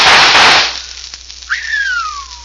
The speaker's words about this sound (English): Smashed it. 3 of them before they hit the ground. By thunder, that's what I call shooting.